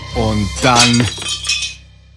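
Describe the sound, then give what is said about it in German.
A porcelain teapot falls from high up and breaks: a sharp burst of clinking, crashing breakage that rings briefly and then fades. A short vocal cry sounds at the start. “Pfannen, Löffel, Milchkännchen, alle sahen entsetzt zu, wie die Teekanne von ganz weit oben stürzte.”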